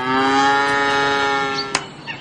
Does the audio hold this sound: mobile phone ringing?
no